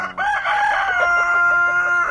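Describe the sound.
A rooster crows on an organic farm near Ukiah where chickens are raised, giving one long, loud, sustained call that carries through the whole stretch on its own.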